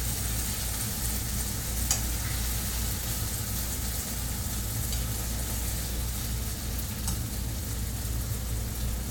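Food fries in a pan with a steady, even sizzling hiss throughout, over a low hum and a few faint clicks.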